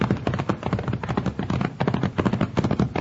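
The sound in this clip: Horses setting off at a ride, their hooves beating out a steady, rapid clip-clop rhythm that carries on throughout without pause.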